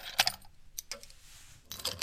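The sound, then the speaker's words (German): Keys jangle as room keys are handed over, with a few short metallic clinks and rattles spread across the moment, fairly faint. “Hier, bitte, Ihre Schlüssel.”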